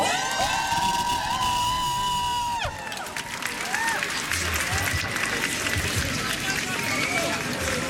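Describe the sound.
Crowd at a school strike protest against conscription cheering, whooping and shouting, a dense and steady wall of loud voices that keeps going throughout.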